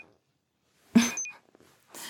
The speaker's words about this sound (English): the point of a heated blanket if you can't even keep the charge for an entire night? Oh, don't beep that tone at me.